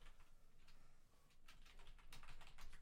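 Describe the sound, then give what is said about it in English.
Quiet typing on a computer keyboard: irregular bursts of soft clicks and key taps, faint and without talk, with a brief pause before the keystrokes pick up again more densely. “I'm gonna type in words and then.”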